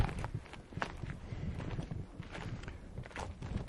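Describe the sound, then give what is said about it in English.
Footsteps climbing uphill through a forest strewn with fallen trees, a steady run of crunching, scuffing steps over rough ground, continuous and moderately loud with no talk. “Now we're climbing. This is a little bit more complex. To get through here.”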